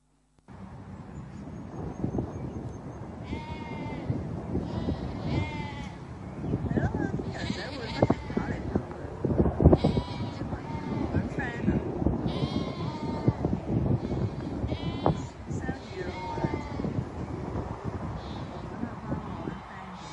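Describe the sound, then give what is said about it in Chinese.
Sheep bleat in a large grassland pasture on a ranch: many wavering, high-pitched bleats come through steadily under continuous talk, with a light rush of wind. “好大片土原系咪啊？草原吓，咁你见到咧，嗰啲羊咧都好和谐吓，冇争要嘢食。”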